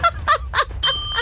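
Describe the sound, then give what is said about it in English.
A bell in a guessing game rings once with a bright, sustained ding and clear high overtones. It follows a brief stretch of voice-like sound and holds until the end. “You reached that bell a little too soon.”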